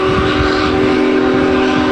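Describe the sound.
A loud, sustained chord-like whistle over a low rumble from a Union Pacific Big Boy steam locomotive crossing the Cuyahoga River between downtown Cleveland and the Tremont neighborhood, held steady throughout with no voices.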